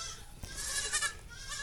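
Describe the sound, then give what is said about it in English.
Baby goats bleat in faint, wavering, high-pitched cries over a constant noisy background, with one cry standing out near the middle. “And here we are, once again surrounded by baby goats.”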